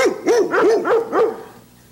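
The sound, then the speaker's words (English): A dog in Virginia barking in a quick run of several loud, rhythmic barks that fade away at the end, with no voices. “And then there's the Virginia dog, who was sentenced to death for barking. It was just bark, bark, bark, bark, bark.”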